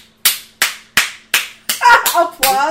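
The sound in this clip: Hands clap in imitation of applause: four sharp, evenly spaced claps ring out alone, then several more quick claps continue as a voice starts talking over them.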